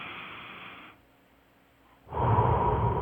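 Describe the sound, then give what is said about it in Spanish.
Deep breaths are pushed out through the mouth during a breathing exercise. Two airy breaths are heard alone: a softer one at the start, then a pause, then a louder, fuller breath to the end. “Respira profundo. Bota el aire por la boca.”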